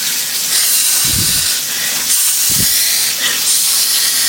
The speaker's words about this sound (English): We let it simmer.